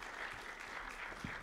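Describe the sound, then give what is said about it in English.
An audience applauds panelists at a live event, a steady wash of many hands clapping that holds at an even level throughout. “Let's give our panelists a big round of applause.”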